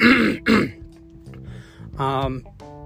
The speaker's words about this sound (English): apparently my throat clearing is going to be a huge part of it, but I will get through it.